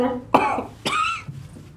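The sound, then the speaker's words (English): A person coughs hard: two forceful, harsh bursts about half a second apart, each trailing off roughly, followed by a fainter, shorter cough. “I think we should roll how hard you coughed that.”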